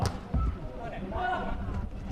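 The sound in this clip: A volleyball is served during a match, with a couple of dull thuds right at the start followed by a steady, noisy background.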